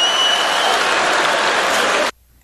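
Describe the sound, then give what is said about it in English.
Rally crowd cheering and applauding, a loud, dense roar of clapping and shouting that stays steady for about two seconds before cutting off abruptly into near silence. “Crowd going nuts for a full shower flow.”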